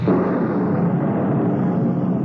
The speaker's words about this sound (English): Send a blast of wind to fan my hate. A thunderbolt to mix it with.